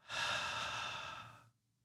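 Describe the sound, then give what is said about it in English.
A deep breath drawn in through the nose and let out through the mouth during a guided relaxation exercise, heard as one long, soft, airy rush that fades into quiet. “Take a deep breath. Take another, but this time inhale through the nose and exhale through the mouth.”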